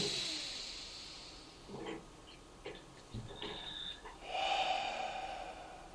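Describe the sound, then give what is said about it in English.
A deep breath, drawn slowly as a relaxation step, comes through as a soft, airy hiss that swells for about a second near the end, with a few fainter breathy rustles before it; quiet overall. “Take a deep breath”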